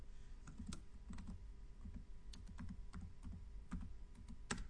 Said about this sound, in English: And when I type in my password, it'll open up the portal page.